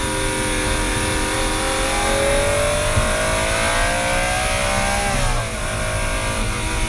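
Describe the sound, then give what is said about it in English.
A car engine revving and accelerating: a loud, continuous roar that climbs steadily in pitch, then dips briefly as the gear shifts and picks up again. “let me roll the little window down so that you can hear it. There's a window literally for the car that lets you listen to the motor.”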